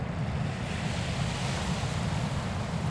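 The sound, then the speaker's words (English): Harbour ambience at Berwick-upon-Tweed at sunset on an incoming tide, with a continuous soft wash of water and wind noise, even in level and without voices. “Just getting towards sunset, 4:45, Berwick-upon-Tweed Harbour, and there's this beautiful golden light descending into the west”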